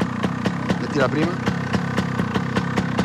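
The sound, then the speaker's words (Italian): A motorcycle engine idles just after being started, with a steady, fast, even thumping pulse that holds throughout. A voice speaks briefly over it. “Vai, metti in moto, un bel colpo secco. Perfetto, lascia, perfetto.”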